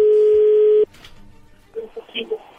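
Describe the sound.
A telephone places a call: a loud, steady dial tone holds, then cuts off abruptly, followed by a few short tone beeps of a number being dialed.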